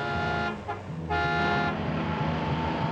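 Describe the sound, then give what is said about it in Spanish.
A car arriving on a snowy road, braking and then reversing, heard as a loud, sustained horn-like tonal drone that dips briefly about a third of the way through before continuing steadily. “Llega el coche de Cruella. Frena y da marcha atrás.”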